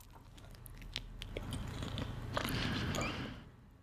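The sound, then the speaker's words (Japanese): Faint biting and chewing of food eaten late at night, with a few soft crunchy clicks over a low continuous murmur of mouth sounds. “これは美味しい、ちょっともう一口食べたい。”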